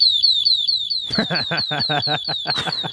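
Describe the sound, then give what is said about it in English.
A shop security tag alarm goes off after its side wire was cut. It gives a shrill, piercing electronic tone that repeats in rapid chirps throughout, and a person talks over it for the second half. “You want to know what happens when you cut the wire on the side of a security tag?”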